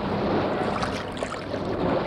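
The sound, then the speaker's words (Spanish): Sea waves and wind wash around large canoes loaded with water, food and weapons as they set out across the strait from Quisqueya toward Cuba. The sound is a steady, dense roar of surf with gentle swells and no clear pauses. “Y un día en grandes canoas, llevando agua, alimentos y sus armas, Atuey y sus simpatizadores se lanzaron al mar, decididos a atravesar el estrecho que separaba a Quisqueya de la Isla de Cuba.”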